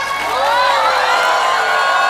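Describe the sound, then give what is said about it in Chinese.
Audience cheering and whooping: a sustained, loud mass of shouting voices rising and falling over a steady crowd roar, without distinct claps standing out. “给自己一点掌声。”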